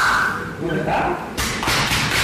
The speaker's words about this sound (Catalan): els cops aquests que escolteu no és que estiguin apallissant a ningú, és que, com ja sabeu, per mantenir la seva masculinitat ferma s'han de pegar molt fort l'un a l'altre quan s'abracen a l'esquena